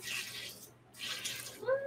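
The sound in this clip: About a cup of water is poured in to make a quick vegan milk for cheese scones, coming in two short, hissing gushes separated by a brief pause. The sound is fairly faint.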